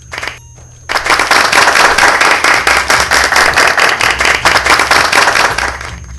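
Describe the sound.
Loud audience applause welcomes a radio host onto a program, rising after a brief quiet moment into dense, sustained clapping that holds strong for several seconds and eases slightly near the end.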